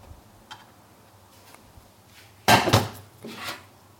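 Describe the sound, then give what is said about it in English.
An oiled aubergine half set down on a metal baking tray: a sharp metallic clatter, then a softer knock and a fainter rattle, after a few quiet ticks. “And put on a baking tray, ready to put in the oven to bake for, 20 minutes, 15 minutes.”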